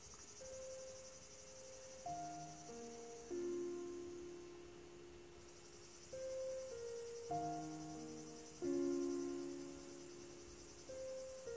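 Crickets chirp at night in a steady, shrill high drone that stays faint throughout, while soft, tuneful notes come and go over it.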